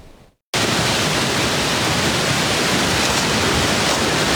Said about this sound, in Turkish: Artvin Borçka'da etkili yağışla birlikte Camili Deresi taştı.